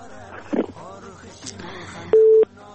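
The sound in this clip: A telephone busy signal sounds after a call disconnects: one short, steady electronic beep that follows a stretch of faint talk.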